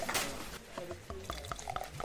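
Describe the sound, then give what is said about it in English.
Trappist beer poured into a glass: a short, faint liquid pour accompanied by soft glassy clinks, with no talking. “Now then, let me pour you a Trappist.”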